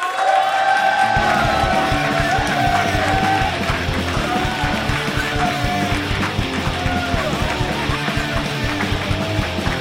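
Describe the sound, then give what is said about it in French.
A live show audience cheers loudly for about ten seconds, a sustained roar of crowd noise. Whoops and yells rise out of it, and the noise stays loud and continuous throughout. “je vous demande de faire un maximum de bruit pour Pierre et Rémi.”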